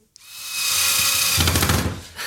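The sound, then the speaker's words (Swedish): A power screwdriver drives screws while a World Cup sign is assembled: a sharp click, then a loud, steady whir of about two seconds that turns rougher and rattly toward the end. “Jag hoppas inte jag skruvar rakt ner i golvet nu. Vad är det du gör? Jag monterar ihop Amandas, jag vet inte ens vad det ska bli, hennes VM-skylt.”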